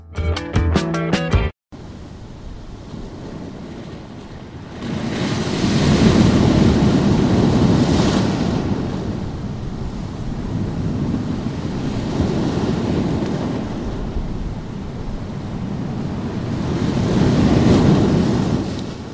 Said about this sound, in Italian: Le onde che sentite sono quelle che potete ascoltare anche quando vi collegate a Radio Antidoto, quando non trasmette nessuno. Sono le onde della spiaggia di Giampilieri.